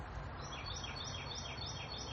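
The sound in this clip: Birds chirping outdoors on a hot day: faint, high, repeated chirps over a steady low background hiss.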